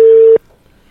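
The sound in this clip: A single steady telephone line tone as a call is placed, one flat mid-pitched beep lasting about a third of a second before cutting off abruptly into near silence.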